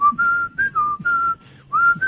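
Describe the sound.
Clear, loud human whistling in four short phrases, each holding a mostly steady high note with small slides up or down between them, separated by brief gaps.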